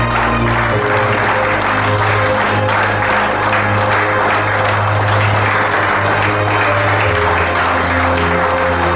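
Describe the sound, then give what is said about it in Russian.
Sustained applause from people rising to their feet in a film scene, dense and steady for the whole nine seconds, with a low musical tone running underneath. “Все встают, аплодируют.”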